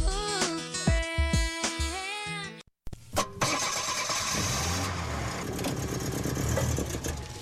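An old clunker car's engine cranks and catches after a few seconds of music, then settles into a rough, steady running rumble that carries on to the end.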